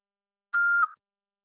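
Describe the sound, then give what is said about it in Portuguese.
A single answering machine beep sounds after a Portuguese voicemail greeting: one steady, fairly high electronic tone lasting under half a second, ending in a brief softer tail, with silence around it. “Após o sinal, fale seu nome e deixe seu recado.”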